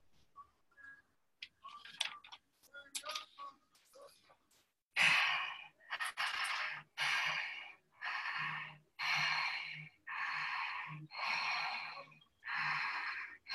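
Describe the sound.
Breathing in and out through an open mouth: after some quiet talk and brief sounds, about nine strong, airy breaths follow in an even, steady rhythm.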